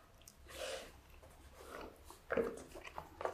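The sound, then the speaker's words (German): Faint chewing and biting from a person eating a 10 to 12 month aged cheese: soft, irregular mouth noises and a few small crunchy bursts, with no talking. “Und ich esse jetzt mal ein bisschen Käse”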